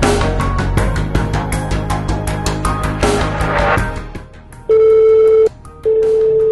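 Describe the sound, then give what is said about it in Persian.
Ringback tone of an outgoing phone call to a Tehran restaurant: two long, steady beeps separated by a short gap, following a few seconds of dense, rhythmic background sound. “با تعدادی از رستوران‌های تهران تماس گرفتیم و در مورد پکیج‌های شب یلدا سوال پرسیدیم”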